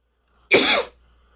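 A single short, forceful cough from a person during a breathing and exhale exercise, loud and alone against quiet, followed by a faint breathy tail.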